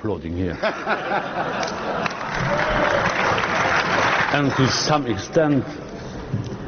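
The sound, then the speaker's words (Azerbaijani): Applause in the European Parliament during Juncker's speech on Britain leaving the EU: a broad, steady patter of clapping swells in the middle, with a man speaking before and after it. “Sizi burada sonuncu dəfə də alqışlayırlar və müəyyən mənada mən həqiqətən də sizin burada olmağınızdan təəccüblənirəm.”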